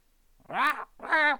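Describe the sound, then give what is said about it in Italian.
Two calls come from a white blackbird perched on a roadside hedge. They are drawn-out, nasal and rich in harmonics, separated by a short pause. The first call arches up and then down in pitch. “un merlo bianco, che se ne stava appollaiato sulla siepe della strada, fece il suo solito verso e disse:”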